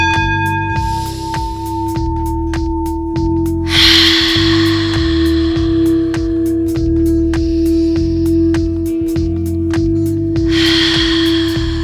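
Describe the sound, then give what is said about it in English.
Deep breaths drawn in through the nose during a breathing exercise make two long, airy swells over a steady music bed, the second rising near the end. “I need you to inhale through the nose, exhale through the mouth, taking in as much air as you can and deplete those lungs. Let's go. Breathe in.”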